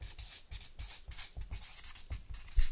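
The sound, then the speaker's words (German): A pen scratches across paper as someone writes down a list. The quick, rhythmic strokes come in many short bursts, faint and alone. “Und zwar schreibe ich da jetzt auf”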